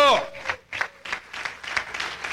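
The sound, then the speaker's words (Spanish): Church audience applauding for the Lord during a Spanish-language sermon: a brief voice, then a few uneven bursts of clapping at a moderate level. “Denle un aplauso al Señor porque Él es el Dios Todopoderoso.”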